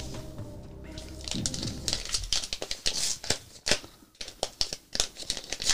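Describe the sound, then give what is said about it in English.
Paper security envelopes being handled and crinkled: many sharp, crisp rustles and crackles in irregular bursts, fairly faint, growing busier after a quieter start. “if you want some real security, you're going to want to invest in these envelopes”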